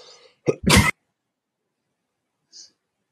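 A cough from a dry throat: one sharp, explosive burst with a brief catch just before it, loud against otherwise near-silence, followed much later by a faint short high tone.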